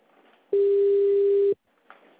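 A telephone tone is heard while a call is being placed: one steady, loud, single-pitched tone lasting about a second, with faint background noise before and after.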